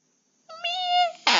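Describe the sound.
A cat meows once, a drawn-out tonal cry of about a second, then a sudden burst of noisy sound.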